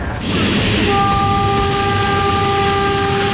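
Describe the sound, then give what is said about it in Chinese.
A train arriving at a station rumbles loudly and steadily. A sustained, level horn tone joins in after about a second and holds to the end. “车马上到站了啊，检查一下自己行李。”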